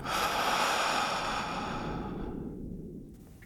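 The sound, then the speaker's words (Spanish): A long, airy breath during a deep relaxation breathing exercise: a steady, soft whoosh that gradually fades toward the end, with no voice. “Inhalando por tu nariz. Exhalando por la boca.”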